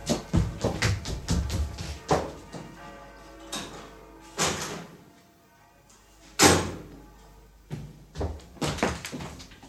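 A door is unlocked and opened, a quiet series of clicks, knocks and thuds, some sharp and others duller, spaced unevenly with near-silent gaps between them.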